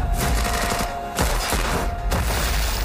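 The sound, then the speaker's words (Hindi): Gunfire rattles through a gunfight scene in a film teaser. Dense, loud bursts of shots run almost continuously, with brief lulls near the one- and two-second marks. “जिसकी झलक teaser में इमरान की gun fight और close combat के रूप में दिखाई दे रही है.”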